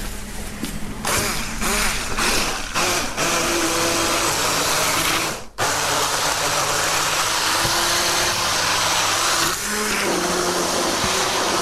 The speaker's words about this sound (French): Nous avons donc mis la mangue, les yaourts nature et l'équivalent donc des deux yaourts en eau. Nous allons mixer.